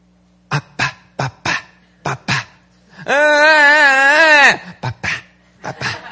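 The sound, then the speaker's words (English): An 11-month-old baby girl vocalizing to ask for something: several short, clipped grunts, then a long wavering whine, then more short grunts. “And she has been learning to vocalize what she wants when she wants something. And oftentimes it'll sound like this.”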